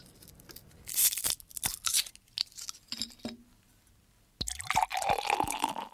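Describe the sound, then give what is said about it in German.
A bottle of Guinness beer being opened: a run of crinkly clicks and small cracks, then a sudden hissing burst that gives way to sustained fizzing and pouring liquid. “Ob es nächstes Jahr immer noch so tönt, wenn man eine Flasche Guinness aufmacht, da sind sich Bierliebhaber nicht einig.”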